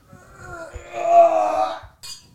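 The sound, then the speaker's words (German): Wine glasses clink together in a toast, giving a bright ringing tone that swells and then fades, followed by a short, higher second clink. “Müssen wir wieder einen Wein trinken, kommen wir müssen anstoßen. Nochmal anstoßen.”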